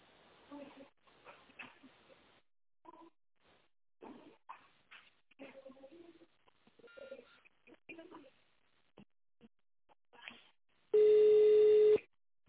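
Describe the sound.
A single loud telephone keypad tone, about a second long, dialing an extension number right after a recorded voice menu finishes speaking.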